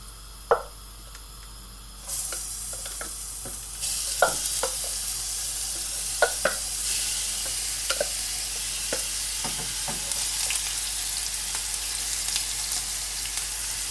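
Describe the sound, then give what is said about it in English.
Onion, carrot and celery fry in a hot pan, stirred with a wooden spoon. A steady hiss of sizzling grows louder in steps, with scattered sharp taps and clicks over it. “If it begins to fry, if you listen very, very carefully, you can hear it starting to fry there.”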